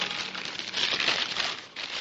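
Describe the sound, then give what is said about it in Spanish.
Paper Burger King bag being opened by Andy Warhol to eat a Whopper, a continuous crisp crinkling and rustling that swells in the middle, dips briefly, then picks up again. “O Warhol abriendo una bolsa de papel de Burger King para comerse un Whopper.”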